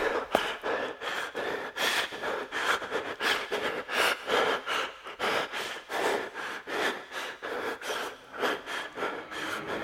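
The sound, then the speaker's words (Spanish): Heavy panting from a person out of breath after hurrying up the stairs to a home's door: many quick, rhythmic breaths in a steady run, fairly faint, with no talking. “subió apresuradamente las escaleras, y ya en la puerta de su casa, se detuvo jadeante.”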